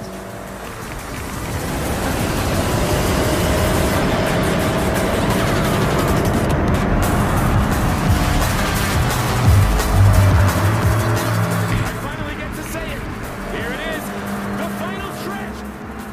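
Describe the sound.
An Audi racing car laps a track in a racing video game. Its engine roars loud and steady for the whole clip, with layered mechanical whine and road noise that barely lets up.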